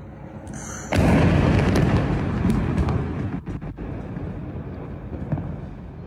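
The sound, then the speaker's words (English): A massive explosion from a remote-controlled vehicle destroying a residential building in Gaza City bursts in suddenly after a quiet second, then rolls on as a long, loud, roaring rumble with a few sharp cracks. “Israel continues to use remote-controlled vehicles to destroy entire residential buildings across the city. Photojournalist Ahmed Al-Sawafiri recorded such an attack on September 20th.”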